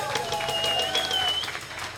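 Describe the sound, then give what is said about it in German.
Conference audience applause for a session chair: dense, steady clapping from many hands at moderate loudness, with a voice carrying over it. “Ich finde, dass Christian jetzt auch mal einen großen Applaus für seine Sessionleitung heute verdient hat, oder?”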